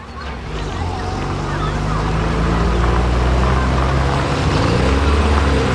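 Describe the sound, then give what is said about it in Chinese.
A vehicle carrying passengers accelerates, its engine making a low, continuous rumble that grows slightly louder over the first second and then holds steady, with voices talking over it. “坐稳了，我加速了啊。 慢点开，不着急啊。”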